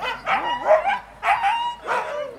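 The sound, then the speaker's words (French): Sled dogs bark and yelp excitedly at a dryland dog-kart race in the four-dog class of a French championship, giving a few loud, high, wavering bursts. “Langlois Damien, je viens participer au championnat de France en catégorie 4 chiens. Ça veut dire que vous avez 4 chiens derrière votre traîneau ? 4 chiens derrière le kart.”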